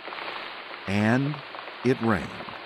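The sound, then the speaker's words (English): Steady rain falling, a continuous soft hiss of drops that runs throughout, with a voice briefly sounding twice over it. “It began to rain,”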